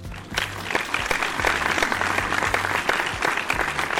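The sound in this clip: Applause from a studio audience welcoming two guests, the co-founders of a building company, a dense, steady clatter of many hands clapping that holds at an even loudness throughout, with a faint low tonal hum beneath.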